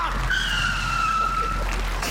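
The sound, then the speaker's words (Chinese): A car brakes hard and its tires skid with a loud, high squeal that holds a steady pitch for over a second before breaking off, over a low rumble. “刹车！”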